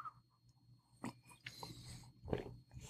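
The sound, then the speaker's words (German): Faint gulps and wet mouth sounds as a person with a dry, scratchy throat drinks something: a few soft swallowing clicks spread over the moment, with one slightly stronger gulp near the end, no talking. “Ich muss gerade was trinken. Hals ist schon ziemlich trocken, kratzt.”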